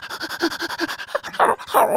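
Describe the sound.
A human voice imitates an excited dog, starting with a quick run of rapid, rhythmic panting breaths, then breaking into louder, breathy whining yelps.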